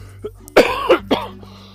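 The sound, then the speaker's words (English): Coughing from allergies: three sharp, harsh coughs in quick succession, with a faint throat sound just before them, heard alone over a low steady hum. “As soon as I stepped out, I started coughing.”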